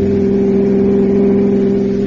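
A car engine drones while driving along mountain roads, a loud steady hum with a constant pitch held throughout, changing only briefly at the very end.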